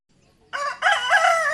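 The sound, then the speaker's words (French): A rooster crows in a village: one loud, harmonic cock-a-doodle-doo that breaks briefly after its opening note, then carries on strongly to the end, alone and with no talk. “Le coq chante.”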